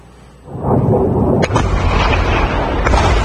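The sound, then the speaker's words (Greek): Missiles strike a US air base in Jordan, producing a heavy, sustained roaring blast that erupts suddenly and stays loud, with a sharp crack cutting through partway. “Είναι η στιγμή που σύμφωνα με ιρανικά μέσα ενημέρωσης πύραυλοι χτυπούν αεροπορική βάση των Ηνωμένων Πολιτειών στην Ιορδανία, σκοτώνοντας 2 Αμερικανούς στρατιώτες.”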